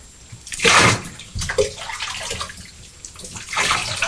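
Water splashes and sloshes in a bathtub during washing and rinsing, with irregular swells of splashing and a steady wet background throughout.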